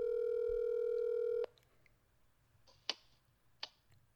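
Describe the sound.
A telephone being dialed for a call: a loud, steady dial tone holds for about a second and a half and then cuts off. Two sharp clicks follow in the near-silence.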